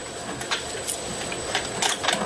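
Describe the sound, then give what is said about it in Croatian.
A modified sewing machine used in accordion repair runs slowly through thick material, giving a faint, steady mechanical whir. Light, uneven clicks and taps rise above it a few times. “Popravljajući harmonike naučio je i da šije. Morao je da prepravi mašinu. Zato što je jako precizno i zahtjevno, mnogo je debelo. Zbog toga mora što sporije da radi mašina,”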